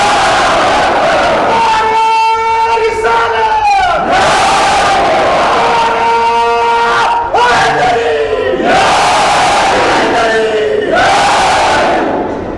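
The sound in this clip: A large crowd chants the Takbir slogan in loud unison at a religious gathering, with several surging shouted phrases rising and falling over a constant roar of many voices.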